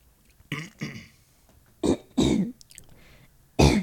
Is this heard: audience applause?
no

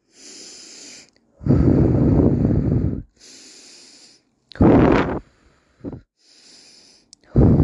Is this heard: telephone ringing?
no

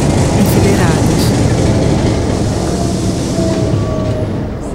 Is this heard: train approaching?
yes

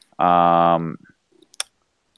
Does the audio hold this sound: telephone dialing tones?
no

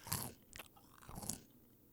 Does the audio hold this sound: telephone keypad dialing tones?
no

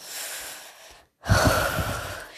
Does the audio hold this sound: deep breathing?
yes

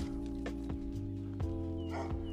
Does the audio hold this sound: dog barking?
yes

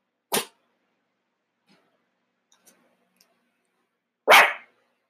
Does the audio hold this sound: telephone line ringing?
no

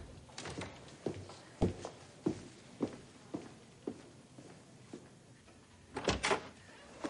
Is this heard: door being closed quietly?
yes

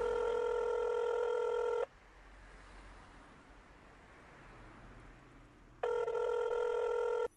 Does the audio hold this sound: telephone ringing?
yes

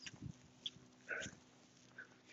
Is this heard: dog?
yes

